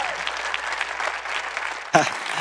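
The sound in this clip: A church audience applauds warmly to welcome a speaker to the stage, a steady wash of clapping that runs at an even level, then a voice breaks in abruptly near the end.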